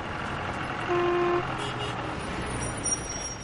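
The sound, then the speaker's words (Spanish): A bus pulling into a train station: a steady low engine rumble with one brief horn-like toot near the start, all at a quiet level. “El autobús llega a la estación de tren.”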